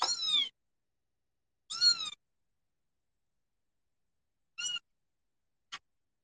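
A kitten meows four times, high-pitched and clear, separated by silent gaps; the first two calls are longer and the last is a brief, clipped squeak.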